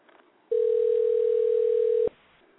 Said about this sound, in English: Let me try to get my caller back on the line. Hopefully this will go through.